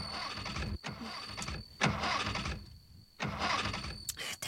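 A car whose fuel tank has been shot through, its engine cranking without catching: several loud whirring starter bursts broken by short pauses, a thin steady whine running through each attempt.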